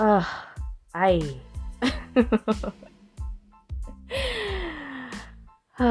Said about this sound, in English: let me take a breath. And let's just jump into this one, because I had to take a breath